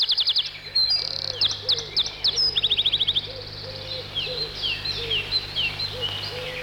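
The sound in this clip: Wren song, loud and bright: rapid high trills and chirping phrases come in quick bursts, with softer low calls sounding beneath them.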